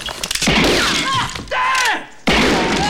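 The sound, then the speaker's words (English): A gunshot is fired at the floor, ending in a sudden, loud, sharp crack after a scuffle of thuds and raised voices. The blast cuts in abruptly and rings out at full strength. “Mad Dog shoots at the floor.”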